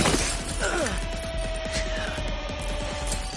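Glass shatters and crashes as a man is thrown against a glass panel during a fight in a plaza. The clatter is dense and sustained, with a steady hum underneath.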